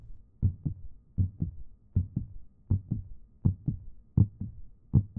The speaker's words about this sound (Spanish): Era el latir del corazón del viejo.